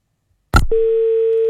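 A telephone dial tone after a dropped call: a short burst of noise gives way to a steady, low-pitched tone that holds loud and unbroken to the end.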